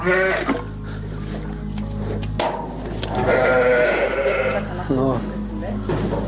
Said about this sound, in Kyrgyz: Жүйдүн беш көрүк айылындагы Бакыт Асымбаевдин чарбасында арашан асыл тукумундагы 53 чакты кой бар